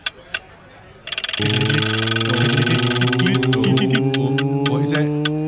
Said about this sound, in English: The Wheel of Features. Right. You ready to spin the wheel? Yep. Let's spin it. Here we go.